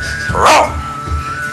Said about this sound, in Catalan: Cago en la puta, és gros de collons, aquest gos.